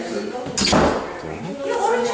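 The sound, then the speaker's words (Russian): An entrance hall cabinet door opens with a single short thud near the middle, heard under a person talking. “Тут у нас дверка, что там, шкафчик входной, как вы можете.”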